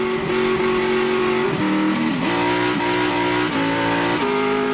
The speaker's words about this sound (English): Oh yeah, so that's the old V8